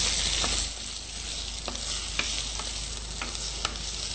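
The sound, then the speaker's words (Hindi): Cumin seeds sizzle in hot oil while tempering. A steady frying hiss carries a few sharp crackles and pops, with no voices over it. “और जब जीरा आवाज करने लगे, छोंक हो जाए, आलू डाल दीजिए।”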